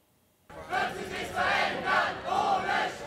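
A crowd of students striking against conscription in Bonn, chanting and shouting loudly in rhythmic waves that break in abruptly after a short quiet start.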